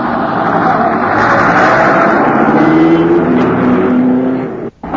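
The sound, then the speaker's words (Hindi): A motor car driving fast gives a loud, steady roar of engine and road noise that holds throughout, with a brief sharp dip just before the end. “ये motor car है, इसमें बैठकर हम तेजी से जहां भी जाना चाहें जा सकते हैं।”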